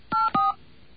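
Touch-tone telephone dialing a number: two short, even, steady DTMF beeps in quick succession, followed by quiet.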